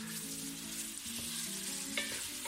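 Meat and onions sizzle in a pan with turmeric and black pepper. The frying hiss stays low and steady, broken now and then by faint stirring.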